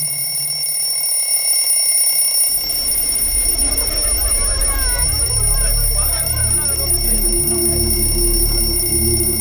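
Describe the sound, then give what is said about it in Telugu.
An alarm that sounds every night at exactly 8 o'clock in a village rings as a steady high-pitched electronic tone held throughout, over a low rumbling background that swells after the first two seconds. “రోజు రాత్రి సరిగ్గా 8 గంటలకి ఒక alarm మోగుతుంది.”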